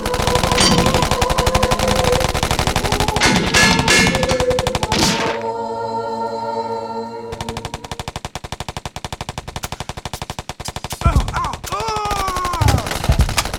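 Loud automatic gunfire as a dramatized shootout sound effect, with rapid bursts of repeated shots fired in long runs, a brief pause, and then more sustained firing.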